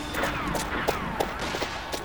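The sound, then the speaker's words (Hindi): Pistol gunfire in a dramatised clash between police and men carrying ammunition and pistols: a few sharp, cracking reports in quick succession over a rough, noisy background. “Fire कर रहे हैं संभल कर”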